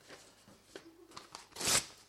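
Paper is torn by hand: faint rustling and a few small crinkles lead to one sharp, brief ripping burst near the end, all quiet and with no voices.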